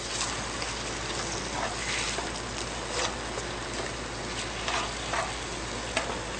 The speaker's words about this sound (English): To this, I am going to go ahead and add some soy sauce. And my stove is on high. Just wanted to get the temperature up there.